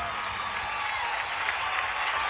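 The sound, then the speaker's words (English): Audience applause and cheering, a dense, even wash of clapping and crowd noise holding at a constant loudness throughout. “Wow, those audience really just quits immediately, don't they? We just shut them down.”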